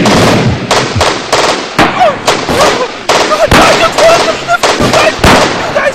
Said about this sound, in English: He's firing, he's still not down yet.